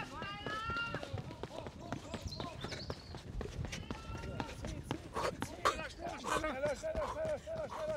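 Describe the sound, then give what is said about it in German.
Rapid, steady footfalls of a runner sprinting 100 metres on a track, with voices talking over the pounding strides throughout. “jetzt wird gesprintet und für den extra Boost habe ich hier meine schnelle Brille dabei. So, 19,6 Sekunden für 100 Meter, los geht's.”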